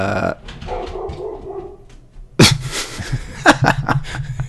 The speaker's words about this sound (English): that's the dog on above barking at somebody going by, because my dog's stupid.